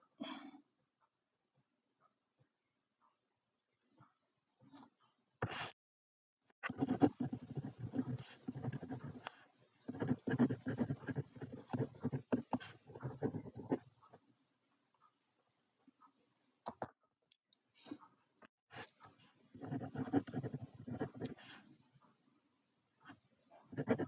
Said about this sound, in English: I'm just writing some stuff down. Multitasking, of course, of course, of course.